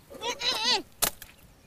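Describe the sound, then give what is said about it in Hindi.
Goat bleating, one wavering, nasal cry with a quavering pitch, followed by a short sharp knock. “बकरी बकरी”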